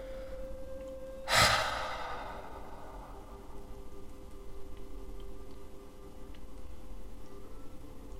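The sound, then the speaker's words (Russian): A sharp exhale through the mouth during a guided breathing exercise. One brief, forceful rush of breath fades over about a second after a faint steady tone, then near quiet follows. “Сейчас еще раз вдох через нос и резко выдох через рот.”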